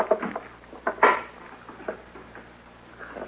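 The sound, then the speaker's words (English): A stick of wood banging against a stove: several uneven knocks and clattering hits, loudest in the first second, then a few fainter taps. “You're going to wreck it, banging it on the stove that way.”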